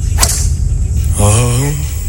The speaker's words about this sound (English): What famous musician has just taken a shot from the tee box in the K Club?